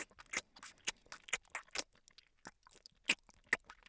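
Crunchy chewing while eating egg, with many soft, irregular crunches and bites. The chewing is faint and close, with no talking.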